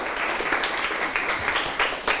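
Classmates clap for a student who answered a math question about cost and profit correctly. The classroom applause is brief, soft and scattered, with uneven claps rising and falling over about two seconds.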